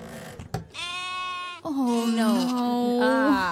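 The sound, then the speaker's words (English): Sheep bleating: two drawn-out bleats in a row, the first bright and reedy, the second longer, lower and wavering, both fairly loud. “Quiero una oveja. Pequeñita. ¿Una oveja pequeñita? Sí. Bueno, pues tengo como 20.”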